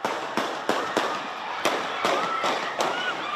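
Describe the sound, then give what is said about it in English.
Gunshots during a street celebration after a basketball championship win: about eight sharp, loud cracks fired at uneven intervals over steady background crowd noise. “gunshots, part of the chronic gun violence epidemic surging in recent months.”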